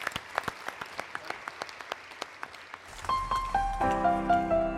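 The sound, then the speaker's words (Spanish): Audience applause for graduates at a gala concert: sustained clapping with sharp, evenly spaced claps standing out, then music starts up and carries over the fading clapping. “para quienes pido un fuerte aplauso de todos los presentes aquí. Aplauso a su esfuerzo.”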